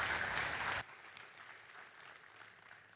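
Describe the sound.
Audience applause breaks out at a King Street Community Church welcome for a visiting rabbi: dense, loud clapping that stops abruptly after under a second, leaving quiet room tone.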